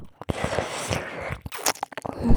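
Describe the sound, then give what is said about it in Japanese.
Crunchy biting and chewing on soft ears in an ASMR recording: many wet, crackling bites in an uneven rhythm, some loud and sharp, with short gaps between clusters. “お耳柔らかくて噛むの楽しい。”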